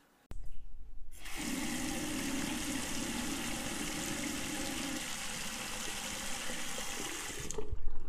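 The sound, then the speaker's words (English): Tap water runs steadily into a sink as plant leaves are washed under it, a continuous, even hiss and splash that holds for several seconds before cutting off, with no talking. “All right, so now that I'm done washing the leaves, I'm just gonna set it aside so that it can dry a little bit before we put it into the pot.”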